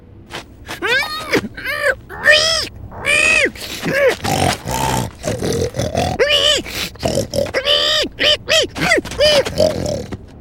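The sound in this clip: A voice imitates a pig, with many quick high squeals and throaty grunts. The squeals rise and fall in pitch in rapid bursts, and the sound is loud and continuous throughout.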